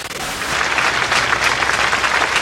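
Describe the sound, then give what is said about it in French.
A crowd of mourners applauds outside a basilica at a funeral for two children. The clapping is dense and steady with no shouts, swelling slightly after the first moment and holding loud to the end. “Pas de cris, juste des mains anonymes qui applaudissent.”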